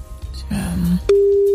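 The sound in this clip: A telephone calling tone as a call is placed: a short voice, then a click and a single steady mid-pitched tone that holds to the end.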